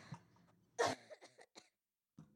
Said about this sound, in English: Hang on, I got a cough. I'm going to press the cough button.